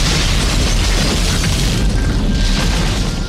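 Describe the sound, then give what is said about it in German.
A loud, continuous low rumbling roar fills the whole stretch as a charcoal grill, doused with a canister of gasoline and lit with a firelighter on top, goes up in an explosion, with no break or pause. “Dann schüttet er leidenschaftlich den Kanister Benzin über die Holzkohle und schmeißt locker ein Grillzündi obendrauf.”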